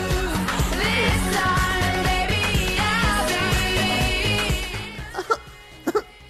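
After a stretch of music fades, a person with something stuck in the throat coughs a few short, sharp times near the end.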